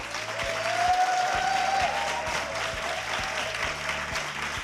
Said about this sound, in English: First, I can ask our live audience here to thank our guests who joined us this hour.